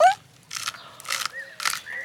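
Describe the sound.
An animal crunches small pieces of carrot in a few separate, short bursts of crisp crackling with brief quiet gaps between bites.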